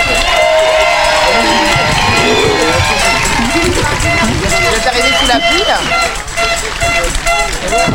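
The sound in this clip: Crowd at a live event in a cinema hall in Rochefort cheers, whoops and shouts for arriving guests, a dense, steady roar of many voices that stays loud throughout, dipping only briefly near the end.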